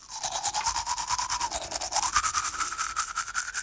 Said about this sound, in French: Le soir, avant de dormir, je me brosse les dents.